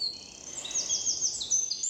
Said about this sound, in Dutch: Het is eigenlijk hetzelfde als een vogel fluit, zoals nu.